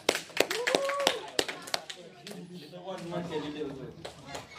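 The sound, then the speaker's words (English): Scattered hand claps of applause for a speaker, with a few sharp, separate claps near the start. People talk over and after the claps. “Give a round of applause to Alfred once again.”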